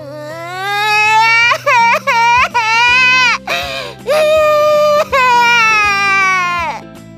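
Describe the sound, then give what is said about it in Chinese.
A young girl crying suddenly beside a toy box before her nap: a series of high, wavering wails broken by short gasps, loud throughout, over a steady low tonal backing. “睡午觉前，小月走到玩具箱旁，突然哭了起来。”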